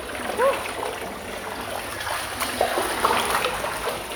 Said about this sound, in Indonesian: ini bakal banyak ada suara air isi soalnya ini lagi di pemandian.